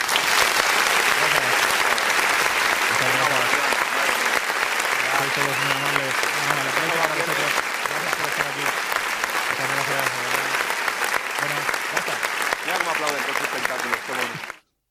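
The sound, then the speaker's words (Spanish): A recorded ovation sound effect: dense, steady applause from a crowd fills the whole stretch at even loudness, with voices talking over it, then cuts off abruptly at the end. “Estas ovaciones las ponía también Santiago Vázquez en su podcast cuando lo hacían superchats y cosas así.”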